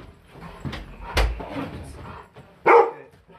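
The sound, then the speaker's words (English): A dog barks in a home a few times in sharp bursts over low background noise, and the loudest bark comes near the end. “Sorry for the dog barking.”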